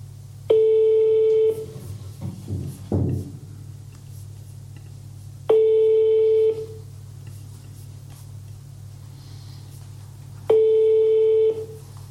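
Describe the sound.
Telephone ringback tone on an outgoing call: three steady, buzzing one-second tones at regular intervals of about five seconds. A few quick clicks follow the first tone, over a constant low hum.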